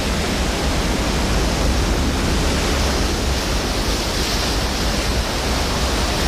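Rough ocean surf pounding a rocky shore where chinstrap penguins come ashore: a loud, continuous, dense roar of churning water that holds steady throughout, with no separate breaks standing out.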